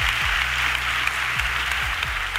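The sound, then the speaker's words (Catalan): An awards ceremony audience applauds the radio with dense, continuous clapping, while a low, repeating, falling bass tone pulses underneath. “Un aplaudiment per la ràdio, o què? Visca la ràdio! Va.”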